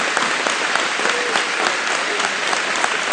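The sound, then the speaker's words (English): A church audience clapping their hands during a lively service, a dense, steady wash of applause that carries on without pause from start to finish. “So see, clapping hands ain't so bad, is it?”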